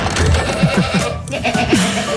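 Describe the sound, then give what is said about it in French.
Goats bleating at the Chabichou goat farm: a few short, wavering bleats in quick succession, then a longer bleat that dips in pitch near the end, over steady background noise. “Eh bien, allons donc à la chèvrerie du Chabichou. C'est parti, allons voir nos petites chèvres. Elles n'ont pas mangé depuis au moins 5 minutes.”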